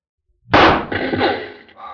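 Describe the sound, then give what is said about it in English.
A single rifle shot fired at a target during Mounted Police shooting practice: a sudden loud crack after brief silence, followed by a rumbling, slowly fading tail with no voices. “Dead center. Brother, I wish I could shoot like that.”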